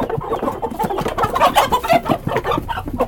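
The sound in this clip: Chickens clucking at a poultry seller's market stall: many loud, rapid, overlapping clucks and squawks with no pause throughout.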